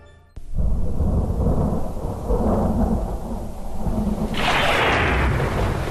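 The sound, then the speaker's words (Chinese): Thunder on a stormy, rainy night: a sudden loud crack opens into a long, deep, continuous rumble over a constant hiss of heavy rain, with the rain growing brighter near the end. “又是一个雷雨夜”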